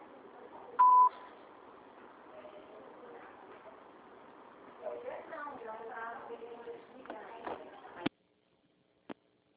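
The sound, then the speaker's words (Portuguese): A Brazilian phone voicemail system sounds a single short, steady beep near the start, followed by faint muffled voices and a sharp click toward the end before near silence. “Sua chamada está sendo encaminhada para a caixa de mensagem de taxa de cobrança após o sinal. Após o sinal, grave sua mensagem.”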